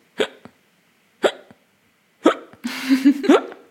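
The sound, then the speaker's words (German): Hard, painful-sounding hiccups: three sharp jolts about a second apart, each followed by a softer after-catch, then a longer, noisier voiced stretch at the end. “das hört sich bei dir auch immer wie die härtesten Schluckaufs der Welt an.”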